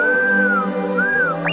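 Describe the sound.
Electronic robot droid whistling and beeping: a few smooth gliding tones arch up and down, then a quick rising chirp ends it, all over a steady low tonal background.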